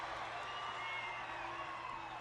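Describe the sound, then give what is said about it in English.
Crowd in a wrestling arena roars during a climactic championship bout at a Battle Bowl event. The cheering forms a continuous, fairly quiet wash of massed voices at an even level. “This crowd is going crazy.”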